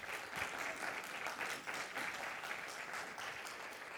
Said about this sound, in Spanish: claro que si demos un aplauso.